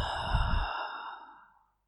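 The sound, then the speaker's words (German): A noisy breath is let out through the mouth, taken as part of a nose-in, mouth-out breathing exercise. The single breathy, sigh-like exhale fades out over about a second and a half. “Nochmal genauso durch die Nase ein und den Mund wieder aus.”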